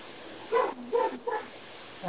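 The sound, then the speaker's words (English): A dog barks in short, sharp bursts, a few quick barks in a row at moderate loudness over a low background hiss. “Sorry if you hear my dog whooping in the background. That's okay. It's good. They're barking.”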